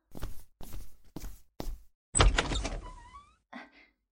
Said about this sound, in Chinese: 你把沙发整理一下，我去开门。